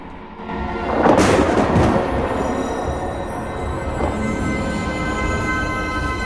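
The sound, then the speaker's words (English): Thunder from a lightning strike outside a large old house, a sudden loud rumbling burst that settles into a steady, lingering roar to the end. “Outside, lightning strikes.”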